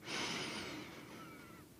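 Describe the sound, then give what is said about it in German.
One slow, deep breath taken during a meditation: a soft, airy hiss that swells quickly and then fades away over nearly two seconds, faint and on its own. “Setze dich hin und atme tief ein”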